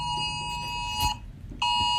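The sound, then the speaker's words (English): A tornado watch alert alarm sounds as a steady, high electronic tone with strong harmonics. It cuts out briefly partway through, then resumes at full strength, with no voices. “We're in the middle of like tornado watch right now. So like if you hear that noise going off,”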